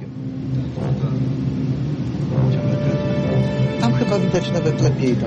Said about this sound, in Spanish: El barco comienza a navegar para escanear el fondo marino con un sonar.